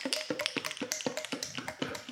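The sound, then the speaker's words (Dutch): Gin, lemon juice and egg white shaken in a nearly empty apricot jam jar, giving many quiet, rhythmic sloshing knocks in a steady back-and-forth beat. “ik heb hier een jampot met bijna lege jampot van abrikozenjam. Ja. Daar heb ik gin en citroensap en eiwit in gedaan. Dat ga ik even voor je shaken.”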